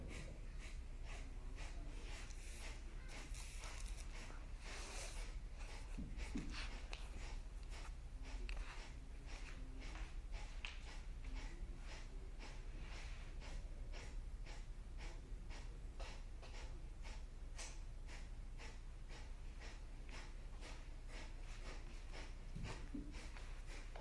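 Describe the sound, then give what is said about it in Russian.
Bhastrika, the forceful bellows breath of yogic kriya practice, heard as a long run of many rapid, evenly paced breaths pumped in and out through the nose. The breathing is quiet and keeps a steady fast rhythm throughout. “Поднимаемся. Бхастрику дышим, поехали.”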